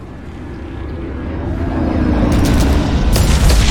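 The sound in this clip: Heavy booming fire from a dropship's mega cannons in a video game: a loud low rumble swells steadily and is broken by a couple of sharp, crackling blasts near the end.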